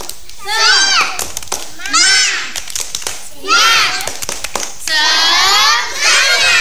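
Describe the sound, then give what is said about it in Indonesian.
Children doing a rhythmic spirit clap: groups of young voices chant in four loud bursts, with quick, sharp hand claps filling the gaps between them. “Ayo sekali lagi, tepuk semangat.”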